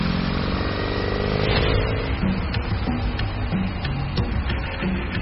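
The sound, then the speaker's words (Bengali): A motorcycle engine rides up toward a flyover, a continuous rough drone with steady rumbling that stays fairly loud throughout. “একটা ফ্লাইওভারের কাছে এসে বাইকটা থামালো জিশান।”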